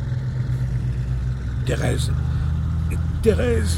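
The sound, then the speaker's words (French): A Citroën Traction Avant car being driven, its engine a steady low rumble that runs the whole way through, with brief voices talking over it. “Thérèse, ralentissez, s'il vous plaît. J'adore conduire. Et notre Citroën est une traction avant-dernier modèle.”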